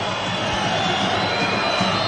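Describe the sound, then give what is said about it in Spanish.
Football stadium crowd complaining at the San Fernando goalkeeper, a steady, dense roar of many voices with no clear breaks. “Por aquí la grada se está quejando mucho, parece ser que el portero, por lo que parece, por lo que comenta el público, se ha dirigido el portero, por supuesto, del San Fernando, se ha dirigido al público”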